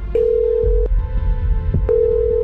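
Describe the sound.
Steady electronic ringback tone of a telephone while a call is being dialed, sounding in a couple of long bursts at a fixed pitch over low background noise.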